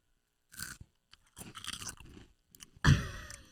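A person chewing Bugles corn snacks up close: a few crisp, crunchy bites and chews in irregular bursts with brief pauses, ending in one loud, sharp crunch.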